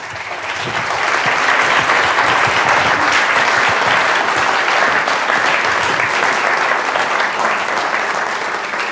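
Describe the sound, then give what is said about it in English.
Sustained audience applause welcomes author Ian Buruma to a talk on democracy and religion. Dense, steady clapping swells in over the first second, then holds loud and even before tapering slightly at the end. “Please give a warm welcome to Mr. Ian Buruma.”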